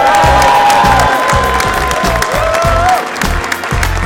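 Applause from a studio audience welcoming a guest, loud clapping and some cheering laid over a rhythmic musical beat, fading slightly toward the end.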